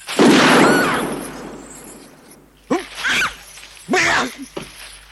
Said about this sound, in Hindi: ये आंख बंद करो और दूसरी आंख से निशाना बांधो। अब गोली चला दो।